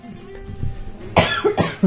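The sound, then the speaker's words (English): A few harsh, loud coughs in quick succession, the bursts clustered in the second half after a quieter lead-in. “I knew that cough was coming and I just couldn't quite keep it away.”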